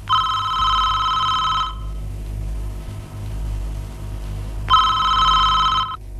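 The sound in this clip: A telephone rings in two long bursts of bright, warbling bell tone separated by a pause of about three seconds, over a steady low rumble, with no voices.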